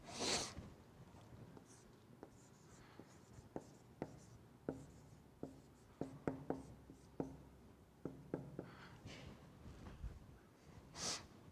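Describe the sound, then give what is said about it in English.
A pen writing down notes gives soft scratchy strokes and many small, irregular ticks, quiet throughout, with short breathy bursts at the very start and end. “Let me just write down a couple points here.”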